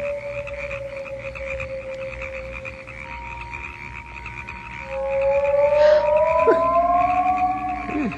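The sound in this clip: Frogs croak on an island in a continuous chorus, with long droning tones sustained throughout and a slight swell in loudness partway through.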